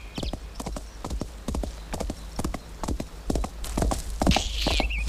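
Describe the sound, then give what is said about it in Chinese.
Clip-clopping hooves of an approaching horse: many crisp hoof strikes in a steady walking rhythm, growing slightly louder toward the end. “你们看，在那边来了一匹马。”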